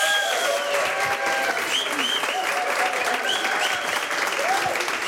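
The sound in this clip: An audience applauds a guest musician with dense, steady clapping that stays loud and even throughout, with voices mixed in.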